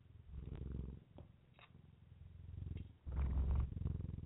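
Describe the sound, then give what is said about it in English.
A cat purrs right into a microphone, a low, quiet, steady rumble with a rhythmic pulsing flutter that fades briefly near the middle and then swells louder toward the end. “listen if you can, see if you can hear Joey purring into the microphone”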